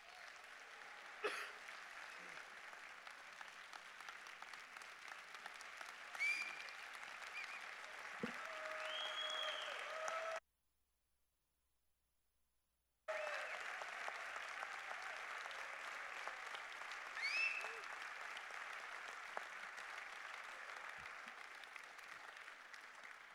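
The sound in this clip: A church audience at Sagemont applauds to welcome its founding pastor, long sustained clapping from many people at a steady, moderate level, cut by a short silent gap partway through before it resumes.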